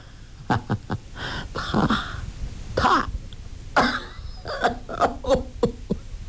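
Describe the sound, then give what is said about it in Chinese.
A man coughing in sudden fits: many harsh, raspy bursts with some throat clearing, coming in irregular clusters of quick hacks and longer rough coughs. “他忽然咳嗽起来。”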